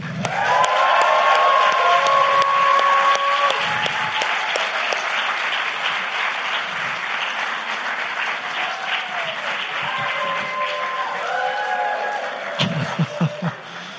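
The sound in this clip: An audience in Portland applauds to welcome a guest at an evening talk with dense, sustained clapping from many hands that stays full for most of the time, then thins to a few scattered last claps.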